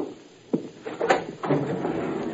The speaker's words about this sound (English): Barney looked away from Wynn's body as we headed for the file room. I yanked open a metal container. It was empty.